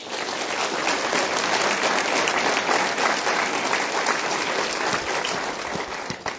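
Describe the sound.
An audience at a Commonwealth Club program welcomes three speakers with loud, sustained applause. The thick clapping holds steady throughout and thins slightly at the close.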